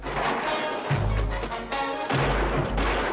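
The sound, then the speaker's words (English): Gunfire in a Western film shootout, heavy booming shots with deep rumbling tails over a dense, busy background of noise. “Kino keeps firing from his position as Chris rides over to him.”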